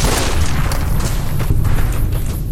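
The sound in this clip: Gunshots in a shooting video game, loud, rapid bursts of firing and booming blasts packed closely together in a dense, continuous barrage with no talk over it.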